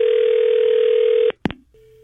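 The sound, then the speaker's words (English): A telephone handset's steady, loud dial tone runs for over a second, then cuts off with a sharp click and a brief tone burst, followed by a fainter, lower tone. “So I'm going to call her, and when she says hello, I'm going to ask her why she called me.”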